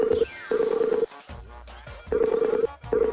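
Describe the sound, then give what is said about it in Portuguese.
A telephone call being placed, with repeated steady electronic tones in bursts of uneven length and a denser layer of other sound running beneath them. “Falando em dinheiro, peraí que eu vou ligar pro senhor K.”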